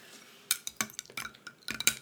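A metal cocktail spoon stirs a mixed drink of about one-third spirits to two-thirds mixer in a glass, making a quick, irregular run of many light clinks and scrapes, faint and with no voices.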